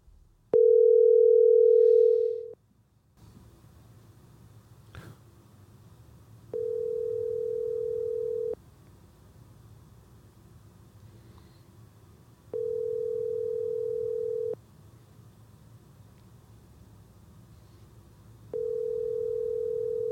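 Telephone tone while placing a call: four steady mid-pitched tone bursts, each about two seconds long and separated by roughly four-second gaps, the first louder than the rest, over a low background hum.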